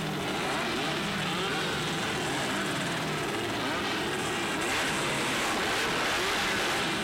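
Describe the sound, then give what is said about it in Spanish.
Sport 4 class race cars accelerating at a racing event, heard as a steady, loud, dense engine roar that fills the whole stretch and swells slightly toward the end. “se termina el Sport 4, se termina la quinta fecha, escucha, escucha cómo acelera el Sport 4.”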